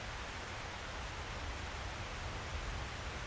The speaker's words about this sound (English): that our practice here with this warm rain, this cleansing storm,